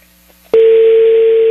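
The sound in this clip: Ringback tone of a phone call that goes unanswered: after near silence, a steady, loud, mid-pitched electronic tone starts abruptly and holds unbroken for about a second.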